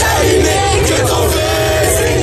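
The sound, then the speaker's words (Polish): Loud crowd roar as people greet Pope Leo XIV during his visit to France, a sustained mass of cheering and yelling voices with no pause. “Wszędzie, gdzie pojawi się Leon XIV, witają go tłumy.”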